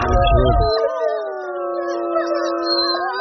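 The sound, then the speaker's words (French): Several wolves howl together, long sustained tones overlapping and wavering in pitch, loud and continuous for the whole clip with no other sounds. “Oula, y a des loups là.”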